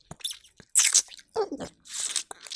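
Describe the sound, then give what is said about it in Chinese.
Crunching and chewing on hard chicken feet: several irregular bursts of crisp crackling bites with softer wet mouth sounds between them, fairly quiet and with no talking. “鸡爪又硬起来了，嘴巴又里边塞不下了”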